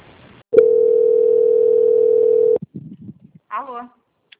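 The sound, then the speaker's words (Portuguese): A steady single-pitch telephone line tone plays for about two seconds while a call is transferred and put on hold, then cuts off into a few short, faint sputters and a brief warbling blip. “eu vou transferir sua ligação para o controle de qualidade, que vai dar continuidade à sua contratação, tá? A linha vai ficar muda por um instante, peço que a senhora não desligue.”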